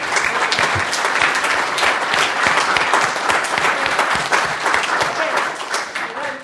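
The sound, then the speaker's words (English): Audience applause fills the room after a group discussion, a dense, steady wash of clapping hands that holds at an even, loud level throughout without a break. “so let's all give ourselves a round of applause”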